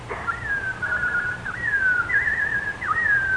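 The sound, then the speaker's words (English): Whistled robin song, probably a person imitating the bird: a single high, wavering tone that glides and warbles, with a few quick dips in pitch, fairly faint over a steady hiss. “What do I hear? Can it be that... Oh, it is. Oh, my little robin friend.”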